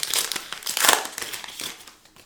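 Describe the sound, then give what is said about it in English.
Crinkling and tearing of a plastic wrapper as a new Topps GQ trading card pack is opened, with a continuous crackle and a few louder bursts and no talk. “Topps GQ pack. And we'll go ahead and open that one up.”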